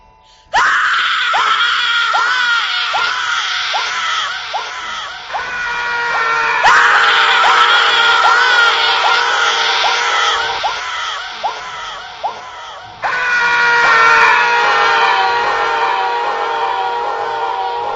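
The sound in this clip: A crowd of people screams in agony, a loud, sustained wall of overlapping high, wailing cries with repeated falling shrieks that carry on almost without pause throughout, with no talking.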